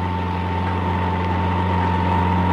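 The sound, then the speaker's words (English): Steady engine hum of a high-powered car driven at speed, a continuous drone with a low tonal core that swells slightly louder toward the end. “the silence was broken by the hum of a high-powered car driven at speed from the west. There she comes.”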